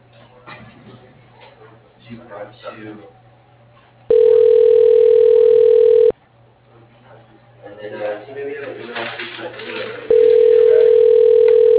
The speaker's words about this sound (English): Calling that extension. Please wait.